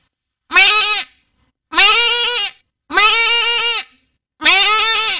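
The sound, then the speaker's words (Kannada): A human voice imitates a goat bleating in a mimicry act: four loud, drawn-out, quavering bleats with a nasal, harmonic tone, separated by short silences and with no talk over them. “ಮೇಕೆ ಕೂಗುವುದು.”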